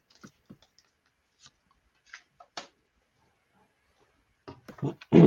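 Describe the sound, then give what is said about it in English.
A starter beginner tarot deck is cut by hand: soft, sparse taps and clicks of cards are scattered across quiet gaps. A louder burst of card rustling and riffling comes at the end. “Okay, just cutting the card deck now.”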